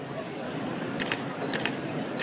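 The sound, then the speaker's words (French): Camera shutter firing during a portrait photo session, with a few sharp mechanical clicks in two short bursts over a steady background murmur. “Monte un peu la tête, juste. Yes. Merci beaucoup. La photo est prête”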